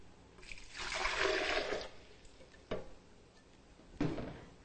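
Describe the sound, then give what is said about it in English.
Water pours into a high-speed blender for a vegan cheese recipe, a rushing splash lasting about a second and a half, followed later by two short, sharp clunks. “For our vegan cheese recipe, we'll be using a high-speed blender, to which we will add our water,”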